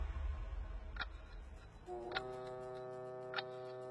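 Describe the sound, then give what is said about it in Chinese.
A clock ticks three times, sharp and evenly spaced more than a second apart, over a steady tonal background hum. “时钟再次向前走动了一格。”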